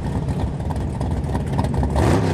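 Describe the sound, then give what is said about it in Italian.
A car engine revs hard as the driver floors the accelerator at a green light for a quarter-mile street race. The mid-pitched roar is steady, then swells louder in the final half second. “Al verde schiaccio l'acceleratore.”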